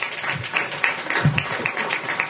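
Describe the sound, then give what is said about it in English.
Audience applause from a packed house after two presentations, a dense, continuous clatter of many hands clapping at an even level throughout, with no voices over it. “I think they deserve another round of applause.”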